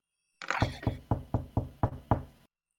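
Knocking on a door, seven evenly paced, firm knocks in a steady rhythm, each a short thud, followed by silence.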